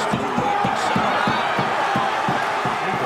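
Knocking, as if on a door, heard amid boxing-match commentary: a rapid, steady series of many dull thumps over a continuous crowd murmur.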